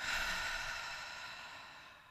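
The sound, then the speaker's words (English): A deep breath during a guided breathing exercise: one long, steady, airy rush that starts fairly loud and slowly fades across about two seconds, with no talking. “Big inhale. Exhale, let it go.”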